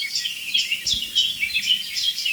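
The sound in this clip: Birdsong from a blackbird and a song thrush, with high, bright chirping phrases repeating in a fairly steady rhythm and no voices present.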